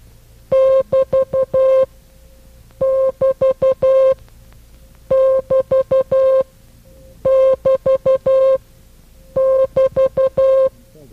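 Morse code break sign, the telegraphy signal for the end of a paragraph, keyed as a steady mid-pitched tone in long and short pulses. The same group repeats five times, with brief silent gaps between groups.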